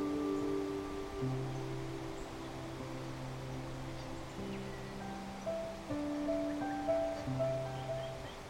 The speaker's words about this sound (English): to the sound of the birds in the canopy and the sound of that beautiful waterfall,